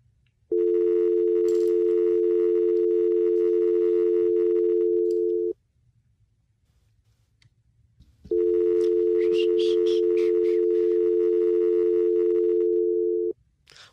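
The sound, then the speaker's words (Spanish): Telephone ringback tone while a call is placed: two long, steady, mid-pitched buzzing tones of about five seconds each, separated by a pause of roughly three seconds. “Llamando a Fletcher.”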